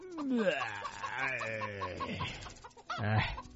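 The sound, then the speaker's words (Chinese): A hen squawks loudly in a run of harsh, rising and falling clucking cries. A sharp final squawk comes near the end. “一路上母鸡一直大叫，巨人被吵醒了”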